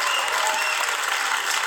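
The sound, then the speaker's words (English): Audience applause, a dense, steady wash of clapping from a crowd that holds at an even, fairly loud level for just under two seconds with no talking over it. “round of applause”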